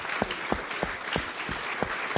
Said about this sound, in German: Gebt ihnen mal einen Riesenapplaus.